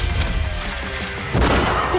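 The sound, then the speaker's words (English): Gunfire in a video game, a loud burst crashing in halfway through over a dense, noisy background of game sounds. “Shots fired!”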